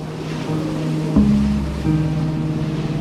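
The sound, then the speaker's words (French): A roaring sea with heavy waves around a sailing yacht running south toward Cape Horn in rain, hail and big breaking surf, a loud continuous wash with a low steady hum and a brief thump partway through. “Dans la descente vers la pointe de l'Amérique latine, la mer est devenue rugissante.”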